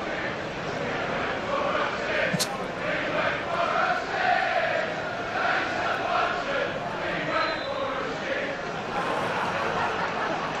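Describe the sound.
A football crowd sings a chant mocking a player who left the field to relieve himself. The massed voices make a steady, dense roar that holds at an even loudness throughout.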